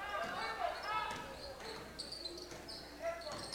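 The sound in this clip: A basketball is dribbled on the court in the closing seconds of a girls' high school game. Bounces sound steadily amid crowd noise and sharp shoe squeaks.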